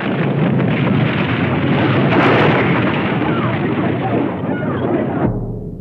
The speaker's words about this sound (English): 1906, an earthquake shattered San Francisco. It was caused by a huge rupture in the fault line that runs below the city. A Hollywood film recreated that disaster.